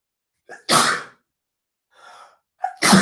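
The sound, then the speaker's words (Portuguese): Two loud, breathy sneezes from a person trying to keep their eyes open, each preceded by a quick intake of breath, with a softer breathy noise in the pause between them. “Vou espirrar de olho aberto agora, peraí. Ai, espirrar de olho aberto.”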